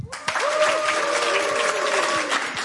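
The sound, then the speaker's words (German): A studio audience claps on cue, breaking into loud, steady applause after a brief moment of quiet. A high whistle rings over the clapping for most of the burst. “die Menschen mit den Gesichtern haben Hände und die machen dann mitunter auch entsprechende Geräusche. Wollen wir mal testen?”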